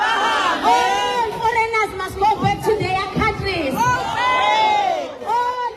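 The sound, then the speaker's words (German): A crowd of hundreds of anti-foreigner protesters chants in unison while marching through Durban's streets. The massed voices are loud and rhythmic, with sustained tones and rising and falling shouts throughout. “Hunderte Demonstranten ziehen durch die Straßen von Durban, halten Schilder hoch, auf denen steht: Kommt und holt eure Leute ab. Immer wieder wird der Ruf laut”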